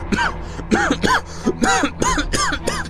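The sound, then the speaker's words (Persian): Coughing and choking from a person with chocolate caught in the throat: a rapid series of strained, voiced coughs and gasps, several in quick succession and fairly loud, with no talk. “شکلات پرید تو گلوم”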